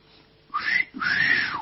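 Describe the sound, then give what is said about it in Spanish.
A person whistles a wolf whistle of the kind aimed at a pretty woman passing by: a short rising note, a brief gap, then a longer, breathy note that sweeps up and falls back down. “¿cuál será el origen del característico silbido que se emite o se emitía al pasar cerca a una mujer bonita?”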